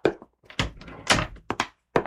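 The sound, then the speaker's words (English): A door being opened in a radio drama: a run of irregular thumps and clunks with short silences between them, and no talk over them. “I'll get the door.”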